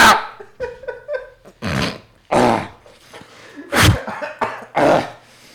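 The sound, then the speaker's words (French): A man coughs and clears his throat hard, as if something is stuck after drinking pastis. Several harsh, gravelly bursts come in an uneven series, with a few smaller hacks early on. “J'ai un truc coincé dans la gorge, c'est peut-être le Ricard, ça.”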